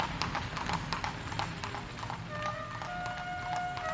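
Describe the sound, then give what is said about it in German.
Horse hooves clip-clop in a steady run of strikes as a stately horse-drawn carriage of 1740 passes through a city gate on a cool harvest-festival day, evenly loud over a low rumbling background. “Anstandslos passierte die herrschaftliche Kutsche das Wendische Tor”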